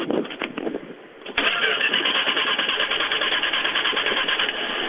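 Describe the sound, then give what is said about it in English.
A car engine with a weak spark being cranked to start: a little over a second of rhythmic, chugging cranking, then the engine catches abruptly and settles into a steady, loud idle. “Well, try to start it. Go ahead. Okay, leave your foot on the gas pedal. Don't touch it.”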